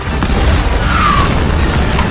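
A rocket-propelled grenade explosion makes a heavy, dense boom and roar that stays loud and steady for about two seconds, with deep rumble throughout and no quiet break.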